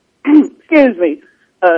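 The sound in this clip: Throat clearing in a few short, rough voiced bursts separated by brief pauses, fairly loud and heard alone.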